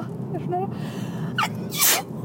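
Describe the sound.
A single sneeze bursts out during ongoing conversation, a short, loud, breathy blast of noise amid the talking.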